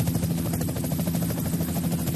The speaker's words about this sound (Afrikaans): Wat op aarde? 'N helikopter hier. Ja, vroeër die week was dit ook so. Hy vlieg hier om na Blombosse kant toe.